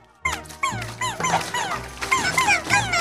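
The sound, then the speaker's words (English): Cartoon puppy yipping and whimpering, a puppy shaped from a blob creature's body in an animated scene, giving many quick, high, chirpy yelps in an uneven run. “As the child cries, Blobby uses a chunk of himself to form a Blobby puppy.”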